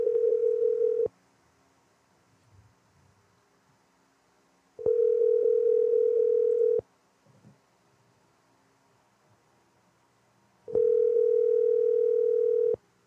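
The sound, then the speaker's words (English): Ringback tone of a telephone call being placed: three steady, evenly pitched tones of about two seconds each, separated by long silent gaps. “Let's call Evan. Let's do it!”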